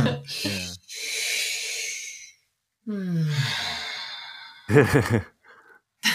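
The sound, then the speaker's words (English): A person takes deep breaths, heard as two long, airy hissing breaths separated by a short pause. Brief voiced sounds come before and after them. “I need a breath.”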